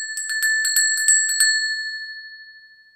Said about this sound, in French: Vous entendrez une petite clochette entre chaque proposition.